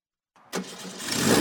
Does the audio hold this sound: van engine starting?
yes